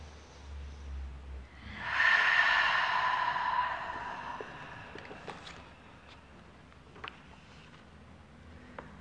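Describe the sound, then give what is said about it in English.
One deep breath in during a guided relaxation and breathing exercise, heard as a faint, airy, hissing inhale that swells and then slowly fades, followed by quiet with a few small clicks. “Another deep breath in. One more like that. Inhale.”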